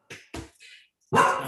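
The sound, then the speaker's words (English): Dog barking as someone arrives at the door: a few short, sharp barks, followed by a louder, longer bark at the end. “Oh, someone's at the door. Yeah, the dog's barking, which we love.”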